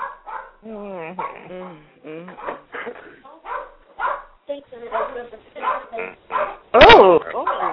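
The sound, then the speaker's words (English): A dog gives one loud, sharp bark near the end, cutting across a group of people talking casually over each other throughout. “now who got a damn dog? Got a dog.”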